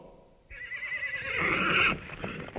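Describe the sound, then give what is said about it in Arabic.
A horse neighs once, a loud, shrill whinny that swells over about a second and a half and then breaks off, with no talk over it. “حصان حصان حصان حصان.”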